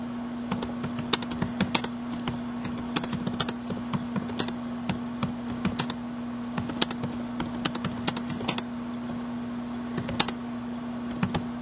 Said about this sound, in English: Hold on, I'm typing with one hand, it's too slow.